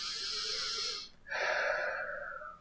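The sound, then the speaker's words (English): A deep breath taken in through the nose and let out through the mouth: two soft airy breaths split by a brief pause, the second fuller and slowly fading, with no talking. “I want you to take a deep breath in through your nose and out through your mouth.”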